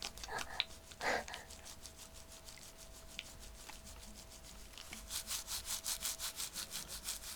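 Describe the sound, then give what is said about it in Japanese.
Chestnuts rubbed together make a quiet, dry scraping with a few scattered clicks early on, then a quick run of many rhythmic rasping strokes toward the end. “これが 栗をこすってる音。”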